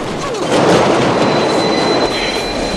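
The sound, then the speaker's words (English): A train hurtles past on an adjacent track: a loud, steady rushing rumble of wheels and carriages that swells after the first half-second and holds, with a thin, high metallic whine joining partway through. “He crouches on the roof and watches as the adjacent train hurtles past.”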